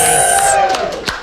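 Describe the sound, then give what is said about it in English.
Call center staff cheering a fundraising total: a short burst of excited whooping voices and scattered claps that fades within about a second. “as of this hour, we have raised $961,039. Everybody cheer.”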